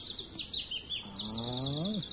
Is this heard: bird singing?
yes

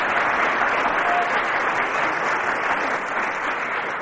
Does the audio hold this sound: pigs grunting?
no

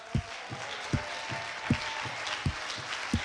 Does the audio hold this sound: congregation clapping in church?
yes

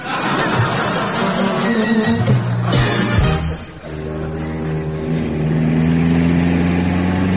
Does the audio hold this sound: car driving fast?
yes

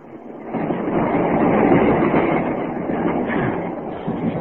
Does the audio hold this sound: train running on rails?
yes

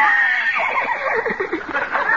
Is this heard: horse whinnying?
yes

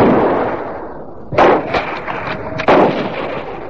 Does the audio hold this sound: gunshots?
yes

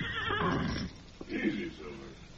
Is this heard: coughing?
no

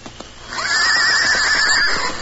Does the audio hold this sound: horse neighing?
yes

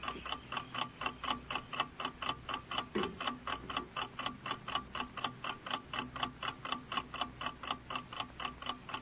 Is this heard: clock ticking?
yes

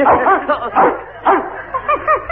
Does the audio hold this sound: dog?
yes

